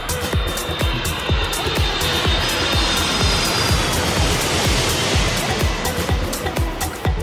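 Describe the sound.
An airplane takes off as a sound effect: a loud, steady, broad engine roar with a thin high whine running through it, sustained for the full length without talk.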